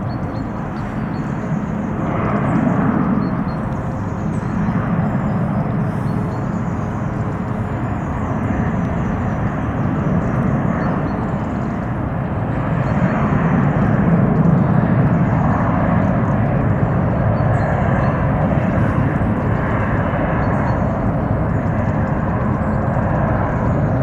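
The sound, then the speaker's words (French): Airplane passing overhead, a continuous broad engine roar that stays loud throughout and swells somewhat past the middle before easing slightly, with no voices. “Il suffit d'appuyer sur REC et en général, il ne faut pas attendre très longtemps avant qu'il y ait un avion qui passe.”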